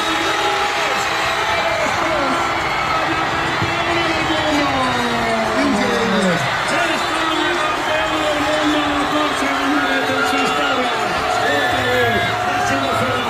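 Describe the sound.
A crowd celebrates a football victory in the Plaza Mayor of Castellón, watching on a giant screen: a loud, unbroken roar of cheering and shouting voices that holds steady throughout.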